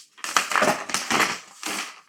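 A sheet of paper is folded and handled, giving three loud bursts of crackling, crinkling rustle within about two seconds, with no talk.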